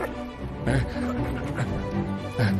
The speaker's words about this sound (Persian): سگو ببینم، همین حالا بس کن